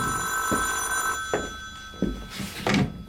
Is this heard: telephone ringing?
yes

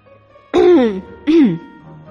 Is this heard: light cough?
yes

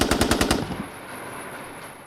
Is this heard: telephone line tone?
no

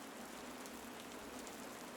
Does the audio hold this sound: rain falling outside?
yes

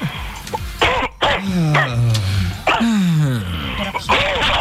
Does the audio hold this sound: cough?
yes

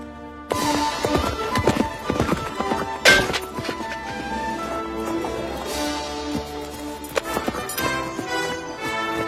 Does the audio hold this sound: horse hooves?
yes

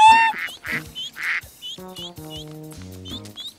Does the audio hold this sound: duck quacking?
yes

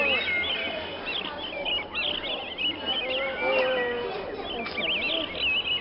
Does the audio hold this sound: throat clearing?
no

